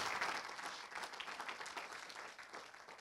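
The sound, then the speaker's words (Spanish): A church audience applauds in praise of the Lord, a dense, steady wash of many hands clapping at once, fairly faint and even from start to finish with no voices standing out. “Dele ese aplauso de alabanza al Señor.”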